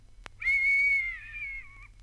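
A person whistles one clear, sustained note for about a second and a half. The note stays level, dips slightly at the end, and is fairly soft with no voices.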